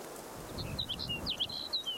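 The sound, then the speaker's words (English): Sage sparrow song, a faint series of short, high, chirpy notes, some sliding briefly, set over a low, soft background rumble. “The previous bird, sage sparrow number 5, was collected and is now NKJ number 5.”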